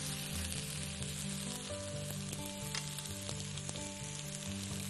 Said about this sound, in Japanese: 玉ねぎを入れて炒めます。じゃがいもが透き通るまでしっかりと火を通していきます。